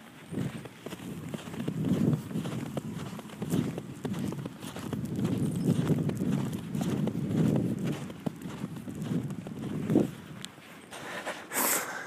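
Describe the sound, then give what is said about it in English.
Footsteps of shoes caked with small piles of snow make a steady walking rhythm of muffled, crunching thuds at moderate loudness. “My shoes have a pile of snow. Each one has a little pile of snow on it. Like, oh, this is what it sounds like.”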